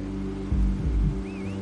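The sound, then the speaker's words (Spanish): Low engine rumble of a motorcycle pulling away with two riders in a riverside film scene, a brief throaty surge over a steady tonal bed. “Ambos se van en la moto.”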